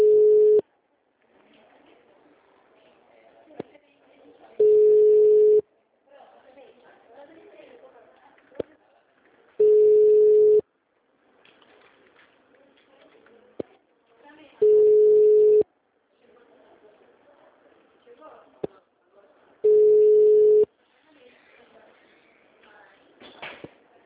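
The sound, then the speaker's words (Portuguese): A ringback tone sounds on a phone line as a transferred call to the Barreiras city hall goes unanswered: five steady, mid-pitched tone pulses of about a second each, one roughly every five seconds, with low background noise between them. “Ela me transferiu, mas até agora tá chamando e não atende.”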